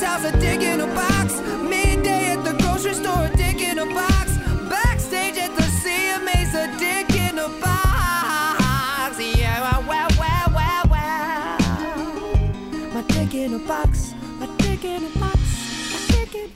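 A comedic song plays with sung vocals over a steady driving beat, loud and continuous throughout.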